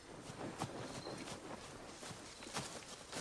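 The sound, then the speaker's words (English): Faint, soft footsteps of someone running ahead through a forest clearing, a few muffled steps in an uneven rhythm over a quiet background. “Elsewhere in the forest, Rolf runs ahead of Maria and Robin. It's through the clearing and over the next hill.”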